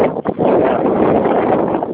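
Wind blows into a phone microphone during a call and makes a loud, rough, continuous rumble. There is one short dip in level near the start.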